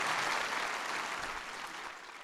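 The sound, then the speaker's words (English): Applause for a president, a dense, steady wash of clapping that holds for about two seconds and eases slightly toward the end. “Give your president a big round of applause.”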